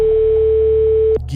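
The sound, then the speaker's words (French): A telephone ringing tone as a call is placed: one steady, mid-pitched tone held for just over a second, then cut off abruptly. A low hum and muffled noise follow. “C'est parti, on appelle quelqu'un.”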